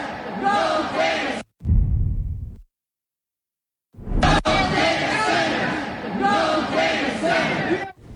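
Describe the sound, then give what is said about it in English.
Raised voices of a passionate crowd at an open house on Milwaukee's north side about the Midtown Center development. Loud, overlapping shouting breaks off briefly, goes silent for over a second, then surges back and carries on steadily. “Yeah, that was just part of the scene on Milwaukee's north side tonight at an open house talking about the Midtown Center development. Our Andy Bernhardt was there, and Andy, it was a very passionate crowd who showed up tonight.”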